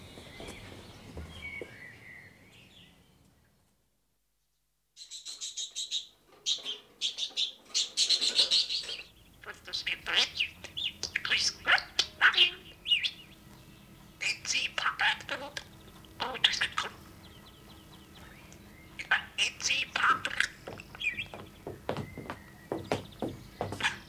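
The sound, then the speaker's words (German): A caged bird chirps in many quick, high tweets that come in irregular bursts after a short silence, while people talk and whisper in low voices throughout. “Der Vogel sitzt da im Käfig.”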